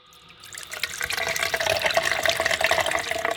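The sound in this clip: Water pouring to douse a burning hoop during a circus fire-breathing act, a steady rushing splash that grows louder and then holds in a continuous, bubbling stream.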